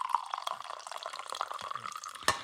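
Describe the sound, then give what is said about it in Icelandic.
Coffee pouring into a mug, a steady trickling liquid sound with scattered drips and a brief louder burst near the end, with no talk. “akkurat núna er ég nú bara að hella hér í kaffibóla minn”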